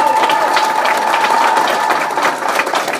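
An audience gives loud, dense, continuous applause. A thin steady tone runs faintly beneath the clapping for the first half.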